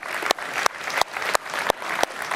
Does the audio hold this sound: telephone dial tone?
no